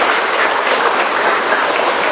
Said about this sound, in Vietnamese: dù đông dù chật nhưng mà ai cũng vui hân hoan chào đón nhau một tràng pháo tay nồng nhiệt